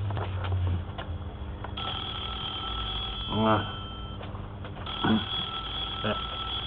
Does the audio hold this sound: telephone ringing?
yes

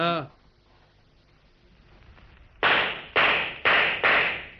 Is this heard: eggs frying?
no

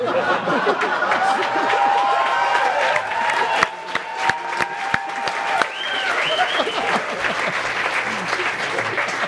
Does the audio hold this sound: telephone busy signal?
no

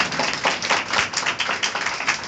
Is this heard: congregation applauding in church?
yes

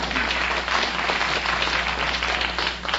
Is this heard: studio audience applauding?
yes

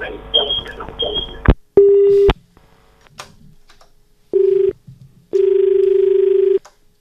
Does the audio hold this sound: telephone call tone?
yes

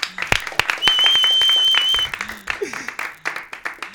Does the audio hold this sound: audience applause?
yes

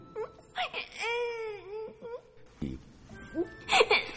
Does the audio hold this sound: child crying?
yes

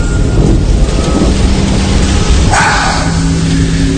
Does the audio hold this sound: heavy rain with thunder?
yes

